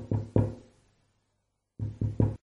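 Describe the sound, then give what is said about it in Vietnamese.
Timid knocking on a glass door: two short, dull raps, a pause, then three more in quick, even succession, with no voices. “thì có tiếng gõ nhút nhát lên cửa kính.”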